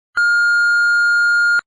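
A single answering-machine beep: one steady, loud, pure tone lasting about a second and a half, heard alone.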